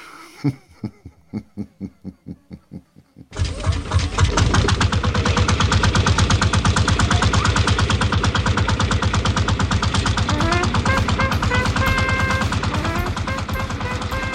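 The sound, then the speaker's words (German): An old Lanz Bulldog tractor engine, warmed with a blowtorch, starts up at dawn at a small circus. A run of about ten spaced, heavy thumps gives way to a loud, continuous, rhythmic chugging that runs steadily to the end. “mit der Lötlampe den uralten Bulldog-Lanz an, den Traktor, der den Tross von Sack und Pack Mensch und Tier wieder hinter sich herschleppen wird”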